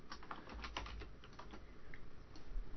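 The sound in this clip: Typing on a computer keyboard while writing a message on a social media wall: many quick, irregular keystroke clicks, faint and even in level, with no talking over them.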